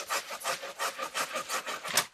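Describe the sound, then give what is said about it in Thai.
A hand saw cuts through sugar palm tree wood in a steady back-and-forth rhythm of rasping strokes, rather faint and heard alone. “อันนี้ก็คือเลือกเลยแล้วก็นี่เลื่อยออกมา”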